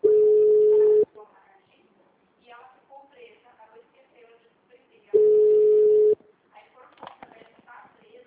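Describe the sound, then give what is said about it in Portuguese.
Telephone ringing tones while a call is transferred on a company's phone line: two loud, steady mid-pitched tones about a second long and roughly four seconds apart, with softer voice-like sounds in between. “Por favor, aguarde enquanto eu transfiro a sua ligação.”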